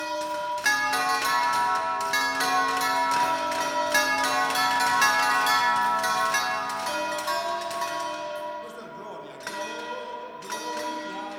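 Church bells are rung by hand in a traditional local melody. Many rapid strikes follow in a steady rhythm, each leaving ringing overtones, and the pealing continues throughout with a brief dip before it resumes.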